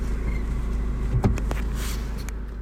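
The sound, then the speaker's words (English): A car driving back around past a temple, a steady engine and road rumble throughout with a brief knock in the middle. “I'm gonna drive back around to see the temple again.”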